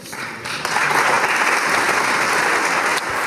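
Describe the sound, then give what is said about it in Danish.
Applause fills the Hungarian parliament after members vote to repeal anti-LGBTQ+ legislation. Clapping builds at about half a second, then stays thick, steady and loud to the end. “Ja, det her det er lyd fra det ungarske parlament i dag, hvor man har stemt for at rulle anti-LGBTQ+-lovgivningen tilbage.”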